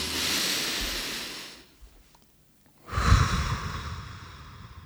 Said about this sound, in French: j'allais justement recommander à chacun de respirer un bon coup comme on l'a fait lors des 5 précédents épisodes. Allez, on le fait maintenant.